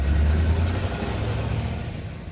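A car drives along with a broad, steady rumbling road noise over a low engine hum, slowly easing in level.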